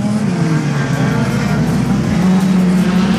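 A race car engine drones loudly at high revs during a motor race, a sustained, buzzing mechanical roar that holds a steady pitch throughout.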